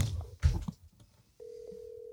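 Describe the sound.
Ringback tone of an outgoing telephone call: after a few brief muffled thumps and rustles, a single steady mid-pitched tone starts and holds unbroken to the end.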